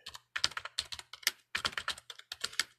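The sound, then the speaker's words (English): Rapid typing on a computer keyboard, with many crisp keystrokes clattering in quick bursts separated by brief pauses. No one speaks. “So let me see if I can't type as quickly as I can here.”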